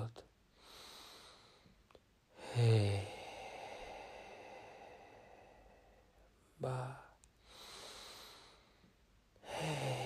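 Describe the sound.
Slow, deep breathing in a guided meditation: a few long, airy inhales and exhales, some ending in short, sharper voiced puffs, with quiet pauses between them.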